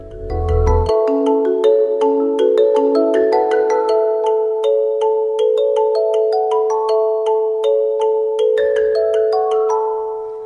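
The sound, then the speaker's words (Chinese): Upbeat theme intro for a 2019 Christian song programme: bright, bell-like plucked notes form a light, lilting melody over a steady held tone. Soft low thumps sound at the start and again near the end. “你听到的是今年2019年最新的新歌新曲栏目片头，可以感受到轻快愉悦的氛围，为今年带出了新的气象。”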